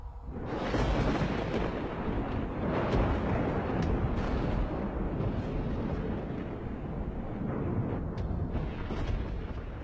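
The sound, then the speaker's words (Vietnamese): A lightning bolt strikes with a deafening thunderclap, giving a loud, dense, rumbling roar that swells at once and stays heavy and unbroken throughout. “Đột nhiên từ trên tầng không, một tia lôi điện đánh xuống, đánh đùng một cái, âm thanh vang lên đến chói cả tai.”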